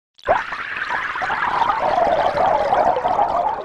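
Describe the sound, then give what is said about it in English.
Computer-synthesized fluid pouring with bubbles: a dense, hissing, gurgling wash that begins abruptly and holds at a steady, fairly loud level throughout, with no talk. “you could give it a virtual scene with this happening and it would synthesize crumpling sounds or for fluids with bubbles.”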